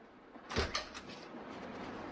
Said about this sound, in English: The door opens.